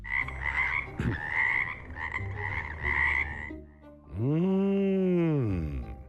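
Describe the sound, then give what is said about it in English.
Frog croaking: a run of raspy, pulsing croaks, then a longer, deeper, resonant croak that swells and fades, moderately loud with no other sounds. “At night, you can hear me say, ribbit, ribbit.”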